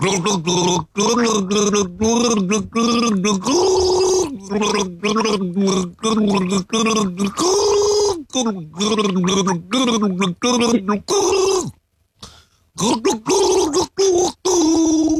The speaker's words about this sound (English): Listen closely. I'm gargling a song from an artist who is a daddy.